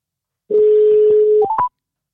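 Telephone keypad tones as a call is dialed: one long, steady beep followed by two short, higher-pitched beeps, loud and clean with no voices.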